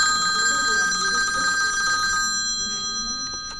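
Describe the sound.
A telephone rings with an incoming call: a bright, steady electronic ring holds for about two seconds, then cuts off, leaving a quieter stretch with a brief high chirp near the end.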